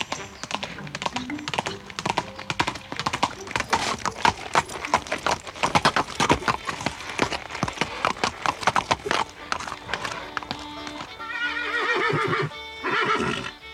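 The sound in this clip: Horse sounds heard while dismounting and riding: many quick, crisp hoof clops in an irregular rhythm. Near the end comes a loud, wavering whinny.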